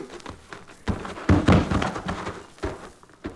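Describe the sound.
Handling noise as a gun is handed over and set down, with a few soft knocks and rustles and a heavier thud midway, fairly quiet and without talk.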